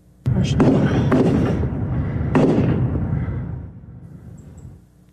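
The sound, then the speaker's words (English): Sharp gunshots from a large rifle during an active shooter incident near a fast-food restaurant, a few loud cracks in quick succession with ringing decay between them and fading after the last blast. “This video just into our newsroom shows a young man shooting in the area with a large rifle.”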